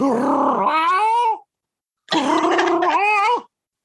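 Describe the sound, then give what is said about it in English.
A man's voice imitates a cat's meow twice, each a drawn-out, whiny call with a wavering, rising-then-falling pitch, separated by a short silence. “they all have these weird meows, you know, like one of them does this thing where he's like,”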